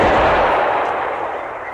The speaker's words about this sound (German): Ein verteufelt weiter Schuss. Gute 200 Gänge.